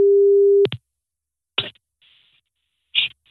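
A telephone tone as an outgoing call is placed: one steady, mid-pitched tone lasting over half a second is cut off by a click, then a few short, crackly bursts of line noise follow.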